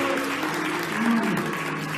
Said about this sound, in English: We'll give the Lord a good hand clap of praise before you sit down.